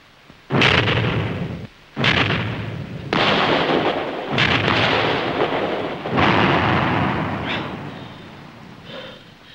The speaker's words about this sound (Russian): Взрыв.